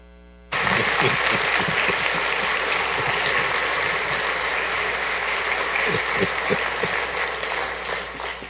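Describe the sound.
An audience at Maple Grove Covenant Church applauds as a guest speaker is welcomed. Dense, steady clapping bursts in abruptly after a moment of quiet and carries on strongly, easing slightly toward the end.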